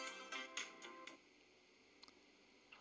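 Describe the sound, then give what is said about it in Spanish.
A phone ringtone sounds faintly as five short, bright chiming pulses in quick regular rhythm, followed by a few scattered soft clicks over a quiet background. “Es un ringtone.”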